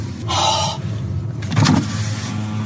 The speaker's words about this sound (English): Rolls down the window.